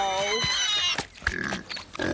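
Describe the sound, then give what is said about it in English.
A pig on a farm oinks and squeals, starting with a drawn-out harmonic squeal, then shorter grunting noises, while voices talk through the latter half. “Oh. It's Tiger the Pig.”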